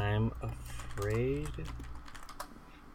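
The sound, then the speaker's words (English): Keys clatter on a computer keyboard as someone types a Google search. A few quick, faint clicks follow a stretch of talking voices. “So do me a favor, go to Google for me. All right, I'm at Google. And type in, I'm going to do it at the same time.”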